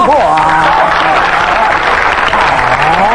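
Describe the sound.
Loud, dense applause from an audience after a white-school jingyun dagu (Beijing drum song) performance, holding steady throughout with a voice speaking over it.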